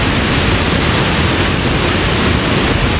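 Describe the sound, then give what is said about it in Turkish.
Water roars from the top spillway of a full dam in Tokat, Turkey, being released for the first time in decades. The rush is loud, dense and unbroken, a steady hissing torrent with no pauses. “İlk kez Savak'tan, yani barajın en üst bölgesinden su bırakıldı.”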